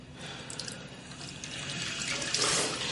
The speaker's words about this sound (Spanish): Abre el grifo y se enjuaga.